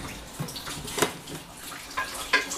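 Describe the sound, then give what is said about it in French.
Tap water runs over a dish as leftover butter is rinsed away, a continuous splashing stream broken by a few sharper splashes and light knocks against the dish. “Voilà, bon bah on va rincer un peu le reste.”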